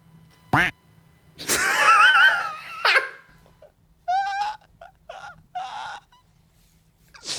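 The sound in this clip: A duck quacking in a series of loud, nasal honks. Some are short and sharp, others drawn out and wavering, separated by brief silences.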